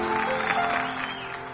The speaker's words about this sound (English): Let's give them a nice round of applause.